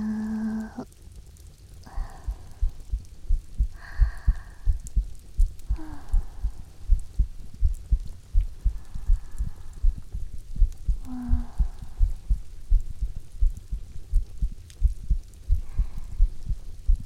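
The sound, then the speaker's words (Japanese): An older sister's heartbeat as steady, low, rhythmic thumping pulses running throughout, with faint intermittent tonal hums above. “お姉ちゃんの心臓の音です。生きてる音。安心しますかね。”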